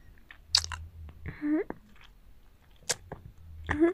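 Chewing of a big meatball: moist, squishy mouth sounds come in a few short irregular bursts, with soft clicks and smacks between them, fairly quiet overall.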